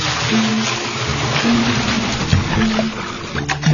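Running water rushes and splashes as someone takes a bath, a steady, loud wash of noise that holds without a break through the whole moment.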